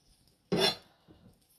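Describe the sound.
Chopped garlic being added to a bowl: a short, bright scraping clatter, then a fainter second rustle a moment later.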